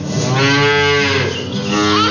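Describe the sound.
A cow moos at milking time, giving a single long, loud, low call that swells, dips briefly and rises again over about two seconds.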